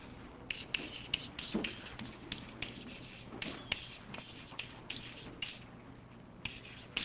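A marker or chalk scrapes across a board as a lecturer draws, making many short scratchy strokes in an irregular rhythm over low background noise.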